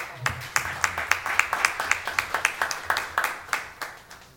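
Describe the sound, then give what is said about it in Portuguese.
Steady claps ring out in a city council chamber as a tribute during condolences, many sharp, evenly spaced strikes that stay crisp and fairly loud over a quiet background. “Salve de palmas para o seu”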